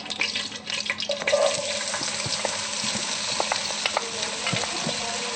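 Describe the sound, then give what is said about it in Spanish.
Tofu sizzling in very hot oil in a pot while a filling for gnocchi is cooked: a steady, crackling fry with intermittent scrapes and clatter from stirring, and no talk. “Primeramente usamos aceite en la olla bien caliente. Echamos el tofu que ya está un poco frito.”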